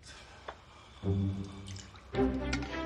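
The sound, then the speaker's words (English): Coffee dregs poured from a nearly empty coffee maker pot into a mug: two short, gurgling pours with splashy liquid sounds, moderately loud and heard alone. “He pours the dregs into the mug and downs it.”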